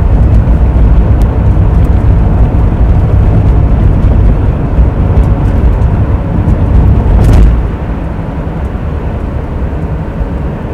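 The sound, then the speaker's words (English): Cars speeding past on a busy road that sounds like a racetrack, a loud continuous roar of traffic that holds steady and then drops sharply to a lower rumble near the end. “I feel a little bit distracted because it is like a dang racetrack out here right now.”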